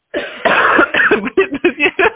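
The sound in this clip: A loud, harsh coughing fit: one long rasping burst, then several short, rapid coughs in quick succession.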